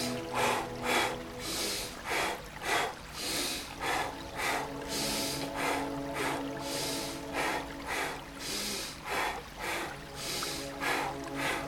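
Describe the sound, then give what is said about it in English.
Paced breathing in a breath practice, one inhale through the nose and a double exhale through the mouth, repeating as many soft airy bursts over a steady, sustained music bed. “Single inhale, double exhale. The inhales through the nose, exhale through the mouth this time.”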